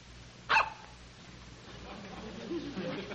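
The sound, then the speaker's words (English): A single sharp dog bark cuts in briefly near the start, then fades into a low, steady background hum for the rest of the short clip. “Do I hear a dog? That is a dog”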